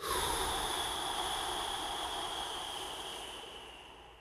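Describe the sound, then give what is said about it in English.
Slow exhale through the nose during a breathing exercise: one soft, steady breathy hiss that fades gradually over about four seconds. “In through your nose for a count of 4. Hold for 7. And out for 8.”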